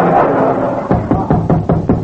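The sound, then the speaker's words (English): Knocking at a door comes as a quick run of about six evenly spaced, hard raps, each sharp and loud, following a stretch of steady low noise. “Will you answer the door”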